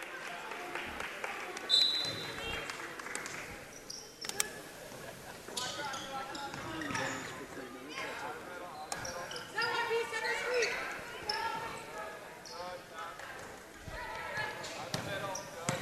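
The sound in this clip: A basketball is dribbled on the court during a girls' high school game between Waunakee and Monona Grove. Several sharp bounces are heard under steady talking and crowd noise.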